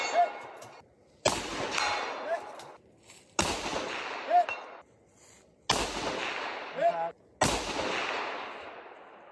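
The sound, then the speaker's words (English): A long-range rifle fires at a target about 680 away. Four sharp, loud cracks arrive a couple of seconds apart, each trailing off in a long decay, and faint ringing pings follow some shots. “The very last shot, I think, was 680. But listen to that, 680”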